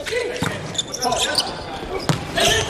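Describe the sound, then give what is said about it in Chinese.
A volleyball serve during a match between teams, one of them Iran. Two sharp ball strikes stand out over continuous crowd noise and commentators talking. “十一号麦克马纳维， 看这次发球。”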